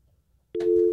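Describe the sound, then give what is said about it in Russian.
A telephone busy tone sounds while a caller tries to reach a listener. After a brief quiet moment, a single steady mid-pitched tone starts abruptly and holds loudly to the end. “Сейчас пока наша главная дачница дозванивается до человека. Звони другому человеку.”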